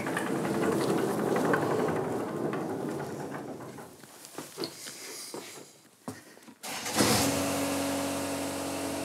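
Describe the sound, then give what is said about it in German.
A rough mower runs on a golf course beside an airfield, its engine a steady mechanical drone that dips briefly and then resumes louder with a firm, even hum. “Eine Rough-Mähmaschine.”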